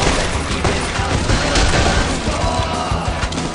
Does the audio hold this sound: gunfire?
yes